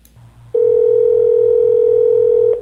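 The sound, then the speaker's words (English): Telephone dial tone as a call is placed: one steady, loud, unbroken tone holds for about two seconds, then cuts off, with a faint low hum before it begins. “Let's give Tom a call, shall we?”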